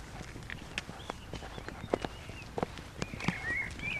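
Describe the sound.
Slow footsteps walk toward a bench in an orchard meadow, soft uneven treads sounding at a relaxed pace over quiet outdoor background.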